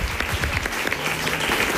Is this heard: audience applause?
yes